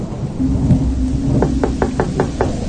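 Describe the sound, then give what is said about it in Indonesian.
Knocking on a house door: six quick, evenly spaced knocks in a short burst, heard over a steady low rumble like rain or distant thunder. “Ku ketuk pintu itu, tapi sama sekali tidak ada jawaban.”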